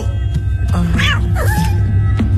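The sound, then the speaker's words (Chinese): A cat meows twice in quick succession, each call a high, wavering whine, over a steady low hum. “你为什么养这么多猫啊？”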